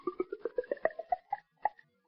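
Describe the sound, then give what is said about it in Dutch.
Liquid, a magic potion, poured into a small jug, heard as a quick series of hollow glugging plops that climb steadily in pitch as the jug fills, then slow to a few spaced final gulps; no talking. “Het tovermiddel ga ik nou overgieten in dit kruikje. Wacht, ik zal het meteen even doen, ja.”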